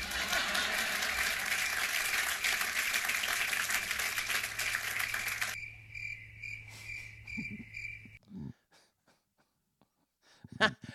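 Audience applause, a dense, even patter of clapping that runs for about five seconds and then cuts off abruptly. A quieter stretch follows with a faint, sustained high tone and a few soft, scattered sounds.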